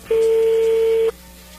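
A single steady telephone tone sounds as a number is being dialed. It holds for about one second, then cuts off, leaving quiet line noise.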